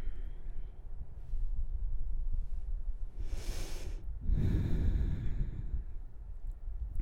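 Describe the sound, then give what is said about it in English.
Deep breathing during a slow yoga stretching session: two breaths in quick succession midway, the first a brief airy rush and the second heavier and lower, over a faint steady low rumble. “Let's take a few breaths here.”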